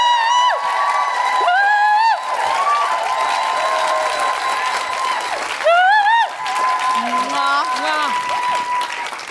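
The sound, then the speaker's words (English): Audience applause and cheering at a live comedy show as a guest is welcomed, loud sustained clapping with high whoops and cheering voices rising and falling over it. “Put your hands together and make enormous, guilty feminist welcoming noises for the wonderful Jennifer Sheridan!”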